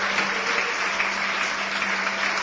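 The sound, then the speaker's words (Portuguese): A church audience applauds, producing steady, dense clapping that stays even throughout, with a faint low hum beneath. “E vamos aplaudir o Senhor Jesus por cada vida que está chegando.”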